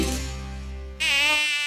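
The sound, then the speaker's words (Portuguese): Buzzing of an Aedes aegypti dengue mosquito: a loud, steady whining drone that jumps to a noticeably higher, brighter pitch midway through and continues alone without any voices. “Aedes aegypti, livre-se do vilão do verão. A chegada do verão e o aumento das chuvas trazem juntos o vilão do verão, o mosquito da dengue.”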